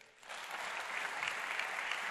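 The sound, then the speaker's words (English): An audience claps in agreement with a statement. After a brief quiet start, the clapping swells into a steady, even patter of many hands, fairly soft overall. “Here's a few statements I'm going to make. You clap if you agree.”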